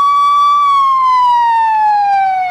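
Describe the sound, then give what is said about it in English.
An ambulance siren blares loud and alone, a single sustained wailing tone that holds steady, then glides slowly downward in pitch as the vehicle passes. “Now, hold on, we got a little ambulance passing through here.”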